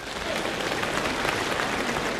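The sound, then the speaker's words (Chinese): Audience applause welcomes a female crosstalk comedian onto the stage, a thick, even wash of clapping that rises in the first moment and then holds steady. “这个女相声演员上来，掌声就是不一样。”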